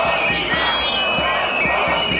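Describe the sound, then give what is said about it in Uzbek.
Tens of thousands of protesters rally in Bratislava, Slovakia, against the prime minister's policies, a loud, dense roar of voices over a regular low thumping beat, continuing without pause. “Slovakiya poytaxtida 10 minglab namoyishchilar bosh vazir Robert Fitso siyosatiga qarshi namoyishga chiqdi.”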